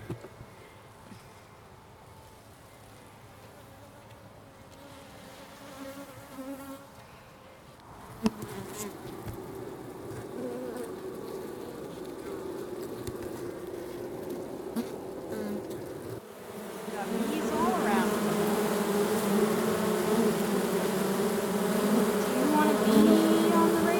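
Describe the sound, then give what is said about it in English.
Honeybees buzz inside a beehive in a dense, steady drone. The droning swells louder in two clear steps as the sound moves deeper among the bees. “we're about to get up close and personal. We're going in. We're going to take you inside the hive.”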